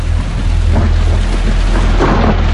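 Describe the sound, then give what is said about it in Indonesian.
Heavy rain pours down in a dense, loud, unbroken hiss while deep thunder rumbles steadily underneath throughout. “hujan turun cukup deras. Kami akhirnya tercegat hujan.”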